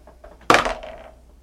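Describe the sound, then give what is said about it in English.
Dice rolled into a dice tray for an attack roll in a tabletop role-playing game: one sharp clatter followed by a brief rattle that fades out in under a second, heard alone. “Could you pass me the dice tray, please? Dice. We'll have him roll to attack Drez”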